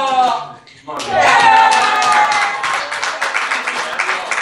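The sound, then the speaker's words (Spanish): Audience applause at a hall inauguration featuring a small circus-style magic act. A voice speaks briefly, then dense clapping starts and stays loud and steady, with voices carrying over it. “Un aplauso para Gabriela y para Rosaura.”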